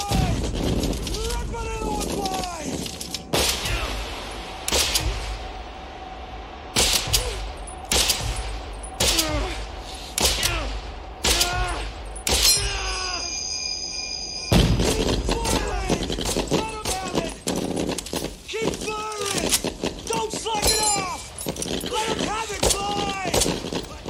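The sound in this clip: Weapons firing at German troops in a war scene: a barrage of sharp, loud gunshot bursts and rapid volleys, with voices heard between and under the shots.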